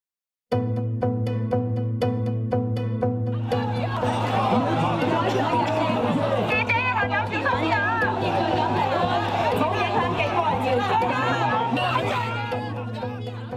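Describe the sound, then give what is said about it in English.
A dense, steady roar of crowd noise and chatter from nearly two million protesters in the Hong Kong streets in 2019. The blended voices stay loud and unbroken for the whole stretch, fading slightly at the very end. “What you just heard there were the sounds of nearly 2 million protesters taking to the streets in Hong Kong all the way back in 2019.”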